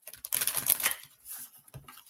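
A card drawn from a deck and flipped over makes a dry, rustling burst of paper sliding and snapping. Two softer, brief taps follow.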